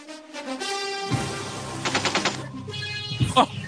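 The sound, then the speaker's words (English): Gunfire from a gun salute: a burst of rapid, sharp shots cracks through the middle, preceded by a tonal, voice-like sound and followed by a few scattered reports. “Gun salute.”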